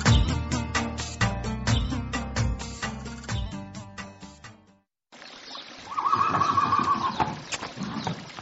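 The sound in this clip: A village racehorse neighs after a short pause, giving one loud, shrill whinny with a wavering tone that drops slightly at the end.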